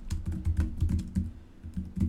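Typing on a computer keyboard: quiet, rapid, irregular keystrokes in short bursts, with brief pauses between runs of clicks.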